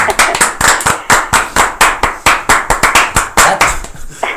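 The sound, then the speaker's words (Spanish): Clapping in a quick, regular rhythm, many sharp, loud claps in close succession that keep an even beat with no voices over them. “¡Vaya, un aplauso!”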